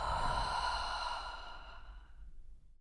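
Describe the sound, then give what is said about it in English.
A single deep breath during a guided breathing exercise, drawn in through the nose and released through the mouth: a loud, airy rush that slowly thins and fades to silence. “So we're going to take in oxygen from our nose and release through the mouth. Are you ready? Breathe in. And release.”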